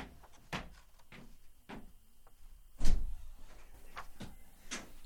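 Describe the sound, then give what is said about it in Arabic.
A door is opened, heard as a few scattered clicks and bumps with one heavier thud about midway. Faint handling noise fills the gaps between them. “من الطارق؟ أنا أخوك يا جعدة، افتح الباب. حسنا.”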